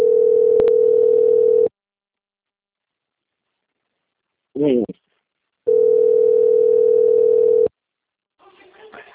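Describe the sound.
Steady telephone tone heard while a call is placed to a client: two long, even, mid-pitched tones separated by a silent gap, with a brief voice between them and faint sound at the end.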